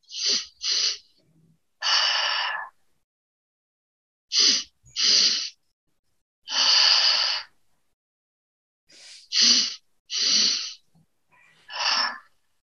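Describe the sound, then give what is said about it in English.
Deep belly breathing during a guided breathwork exercise, heard as a series of airy breath sounds with short quick pulls alternating with longer, fuller breaths, fairly loud and with no talking over them. “Continuing in this fashion, ensuring that you're getting a full belly breath, a full breath into the chest.”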